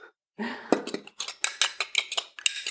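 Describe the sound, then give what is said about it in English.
Eggs being beaten in a bowl give a quick run of many sharp clinks of a utensil against the dish, fairly regular and rapid after a short quiet start. “I'm just beating them now.”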